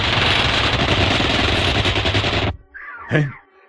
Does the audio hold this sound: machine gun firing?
yes